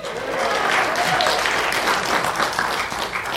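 Audience applause at a movie screening event: loud, continuous clapping from a crowd, an even wash of noise that stays strong throughout and eases only slightly near the end.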